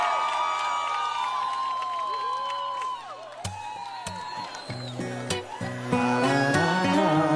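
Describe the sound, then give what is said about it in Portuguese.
A studio crowd at a radio show cheers and shouts on cue for a guest, with high whoops and whistle-like cries. In the second half, sharper claps and shouts break in, louder and more scattered. “Eu quero que vocês façam muito barulho para os meus amigos, o Guilherme!”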